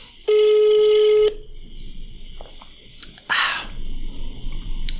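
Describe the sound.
An outgoing telephone call ringing: one loud, steady electronic ring tone lasting about a second, then a faint high hum, a few clicks and a short burst of noise.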